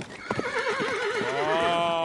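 Restless horses, kept in their stable without being taken out for a day, neigh in two loud, quavering whinnies, one following straight after the other.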